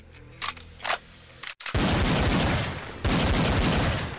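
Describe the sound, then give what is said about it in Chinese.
Gunfire from two shooters with a sniper rifle and a handgun, firing while moving among rocks: two short separate shots, a few sharp cracks, then a long, loud, dense barrage of rapid fire. “两个人竟一边移动一边射击，依靠身法和周围的岩石作为掩体”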